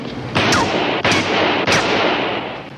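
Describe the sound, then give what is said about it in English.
Three loud gunshots during a bank robbery, evenly spaced, each a sharp blast with a ringing tail that fills the gap before the next. “Please put those guns down. You could hurt people. Shoot her, Nunzio.”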